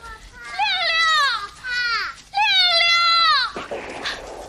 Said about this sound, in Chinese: 在树林里隐蔽着的孩子们听到枪声，吓得叫喊了起来。